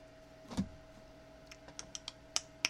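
A few scattered key clicks of typing on a computer keyboard while opening Facebook, preceded by a single dull thump, all quiet over a steady electrical hum.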